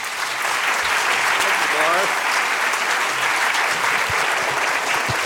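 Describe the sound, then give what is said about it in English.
Loud, sustained applause from a Philadelphia library audience greets an author of a book on genius, a dense even wash of clapping with a faint voice briefly audible under it. “let's give a warm Philadelphia welcome to a man who combines all of the genius qualities that are in his book”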